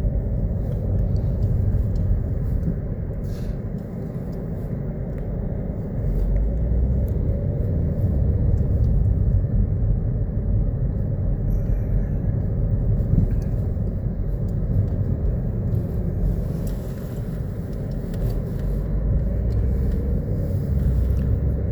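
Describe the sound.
Steady low engine and road rumble from a car being driven around, continuous and even in loudness throughout, with no talk.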